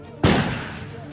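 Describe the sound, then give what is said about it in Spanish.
A single gunshot from police officers firing: one sharp, loud blast that decays into a noisy rumbling tail. “Los oficiales le disparan, pero el monstruo es incontenible.”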